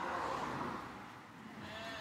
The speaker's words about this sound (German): Ingolf und Melanie passen mit ihren Hunden darauf auf, dass keins der Schafe auf die Straße hinter ihnen läuft.